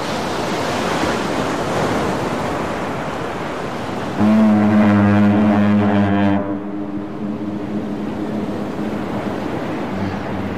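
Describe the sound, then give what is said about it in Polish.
Sea waves wash steadily on a Baltic beach at Gdańsk, a continuous rushing surf. Midway a ship's deep horn sounds once for about two seconds over the surf, then the waves carry on alone. “Statek, morze! Świetnie. I coś jeszcze bardziej może, tak konkretnie? Plaża. A jakie morze? Bałtyckie.”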